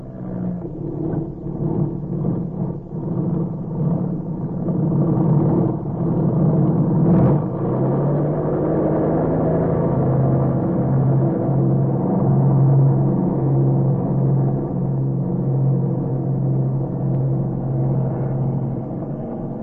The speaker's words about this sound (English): Stand where you are until Purcell gets off the ground. You have a gun. Yes. Don't try to get away. Purcell is ready to take off.